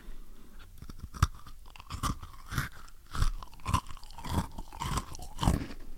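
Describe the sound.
Crunchy chocolate biscuit being eaten: sharp, brittle crunches repeat roughly every half second, with softer chewing and grinding between the bites and no talking.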